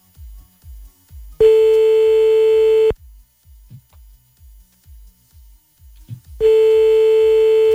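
Ringback tone of an outgoing telephone call: two long, steady, loud tone bursts of about one and a half seconds each, separated by a pause of several seconds filled with faint low rhythmic pulses.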